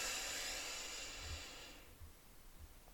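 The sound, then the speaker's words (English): A slow, deep inhale taken during a guided relaxation exercise: a faint, airy hiss that lasts under two seconds and then gives way to near silence. “I just want you to take a deep breath. Like, let's do that together. Breathe in with me.”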